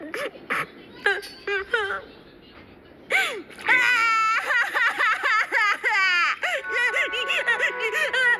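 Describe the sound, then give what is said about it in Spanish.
A cartoon character cries and sobs: a few short whimpering sobs, then loud continuous wailing with quavering, rising and falling pitch. “Ya debe estar por agotarse. No puede quedarle mucho llanto.”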